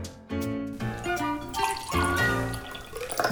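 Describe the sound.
A drink is poured in a continuous, faint, gurgling liquid stream with shifting tonal ringing throughout.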